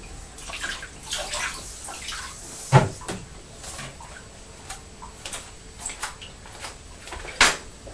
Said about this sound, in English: I think we need to just wash our hands again, don't we?